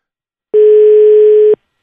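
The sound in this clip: Ringback tone of an outgoing telephone call, a single steady one-second beep at low pitch, loud and alone, with silence before and after.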